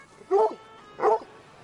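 Two barks from a bull terrier at New York City's largest farmers market, each a short, clear, mid-pitched yelp, separated by a pause, over a faint low background hum.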